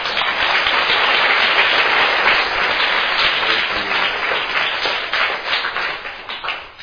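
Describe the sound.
Audience applause at a street awareness event about Ebola, where children are being addressed: dense, continuous clapping that stays loud throughout and thins slightly near the end.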